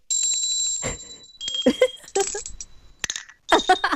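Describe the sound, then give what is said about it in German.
Small handcrafted souvenir bells ring in a few separate bursts, each a bright, high, lingering tone with light clinking, the strikes spaced irregularly over several seconds. “Kleine Glöckchen, aber nicht so ein Ramsch, sondern wirklich was Hochwertiges. Also gut kunstwerklich gearbeitet. Und wie klingen die?”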